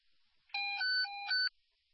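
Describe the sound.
Fire dispatch alert tones sound alone: a loud electronic chord of several steady pitched beeps that shift in pitch partway through, lasting about a second, with faint hiss before and after.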